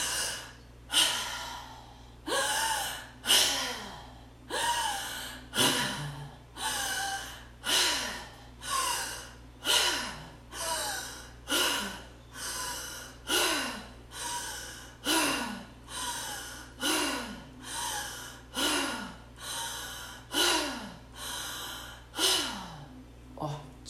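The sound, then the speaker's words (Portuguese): Deep breathing through the mouth during a guided breathing exercise: many forceful, rushing breaths follow one another in a steady, quick, regular rhythm. Each breath is a loud airy burst, and a faint constant hum sits underneath. “nós vamos respirar juntos aquela respiração pela boca, com a intenção de trazer total liberdade para você.”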